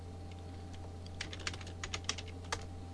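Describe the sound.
Typing on a computer keyboard: a quiet scatter of light clicks becomes a denser burst of many crisp keystrokes in the second half, over a steady low electrical hum, with no speech.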